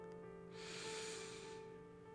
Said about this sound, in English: filling up the space where all you hear is my breath, but what you feel is your breath and you hear my words. Deep breath in,